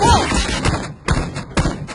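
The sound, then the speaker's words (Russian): A character does a tactical roll in a video game firefight, heard as a few dull thuds and scuffs spread through the moment. No voices are present. “Тактический перекат!”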